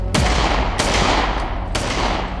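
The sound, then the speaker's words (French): Gunshots from a gun firing rubber bullets: three sharp cracks spaced unevenly over a loud, steady roar that partly masks them. No voices. “dégaine et il tire sur le motard. L'homme s'en sort, ça n'était que des balles en caoutchouc.”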